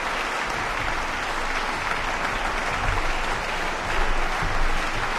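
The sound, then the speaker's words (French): A concert audience at Victoria Hall in Geneva applauds after a performance of Haydn's Stabat Mater. The clapping is loud, dense and continuous, swelling slightly toward the end. “Et vous entendez la réaction du public de la salle, enthousiaste”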